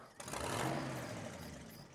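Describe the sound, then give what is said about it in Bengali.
A car engine starts with an abrupt onset, then settles into a steady, fairly faint rumbling idle. “কোনো জবাব দিলাম না গাড়ি start দিলাম”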